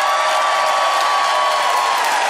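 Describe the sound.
Crowd cheering and applauding for the winner of a debate, a dense, loud, steady roar of many voices and hands that holds for about two seconds without a break.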